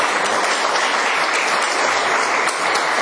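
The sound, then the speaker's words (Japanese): Thunderous audience applause follows a lecture on local history, a dense, loud, unbroken clapping that holds at a constant level throughout. “もう一度盛大な拍手をお願い”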